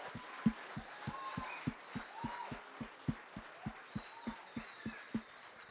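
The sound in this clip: Church audience claps to welcome guests: faint, steady rhythmic clapping on an even beat of roughly four claps a second, over a soft background murmur.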